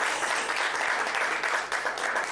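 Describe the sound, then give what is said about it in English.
Sustained audience applause fills the room at a ceremony thanking longtime supporters: dense, steady clapping from many hands at an even loudness, with no voices over it. “Please give a big round of applause.”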